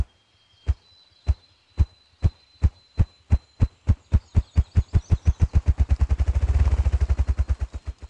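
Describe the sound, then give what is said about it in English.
A male ruffed grouse drums with its wings beating against its body, sending out many deep, muffled thumps. They begin slow and evenly spaced, then speed up steadily into a fast, blurred roll before stopping. “The male ruffed grouse's song is not vocal, but it does involve the movement of air as wings beat against body to produce a drumming sound, some 50 wing beats speeded up toward the end.”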